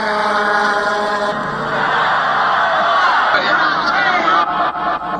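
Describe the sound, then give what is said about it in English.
A crowd roars and yells during violence on stage at the Altamont Free Concert, December 1969, at Altamont Speedway in Northern California. The dense, loud uproar of shouting voices continues throughout. “That was the sound of a little violence on the stage Saturday afternoon at Altamonte.”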